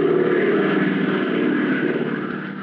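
An airplane circling overhead above a dark, shut-down airfield, its engine a steady, loud droning hum that holds constant and eases slightly toward the end.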